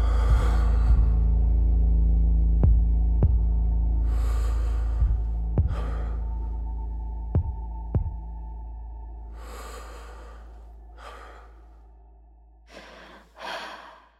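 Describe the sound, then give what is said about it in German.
Slow, heavy breathing at the close of a film: several long, rasping, sighing breaths with occasional sharp clicks over a low rumble. The breathing thins out and fades, then a last couple of short breaths sound at the end. “Vor allem jetzt auch ganz am Schluss nochmal mit dem Atmen aufzuhören. Ja, aber die Mietze, mit Mietzes Atmen.”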